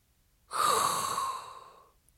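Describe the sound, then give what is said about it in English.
A single long, hot, breathy inhale, airy and hissing, starting abruptly and tapering off over about a second and a half, alone without talk. “all there is left to do is inhale a hot breath”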